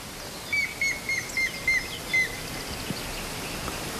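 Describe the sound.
A grey-headed woodpecker calls, giving a series of six short, clear whistled notes at an even pitch and spacing. The notes are followed by quiet background hiss.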